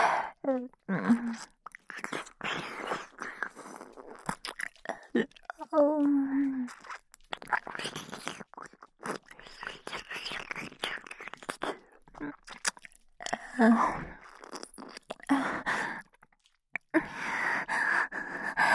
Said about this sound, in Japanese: すっごい、舌でつながりながらお耳もペロペロしちゃってる。